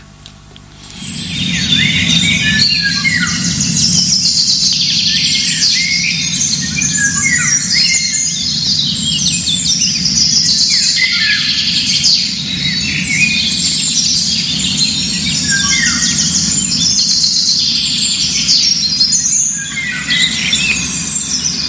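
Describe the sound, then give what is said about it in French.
Several birds sing outdoors in nature, with many overlapping high chirps, trills and squeaky calls throughout. A steady low background noise sits beneath them. “vous allez très vite voir que c'est un chant d'oiseau. Ça se passe quelque part dans la nature. Il y a plusieurs oiseaux.”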